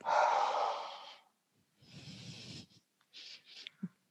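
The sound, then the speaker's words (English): Deep breathing during a guided exercise: a long, loud, airy breath, a pause, then a second full breath, followed by a few shorter and fainter breathy puffs. “finding the fullness of inhale that rocks you forward. The exhale sends you back.”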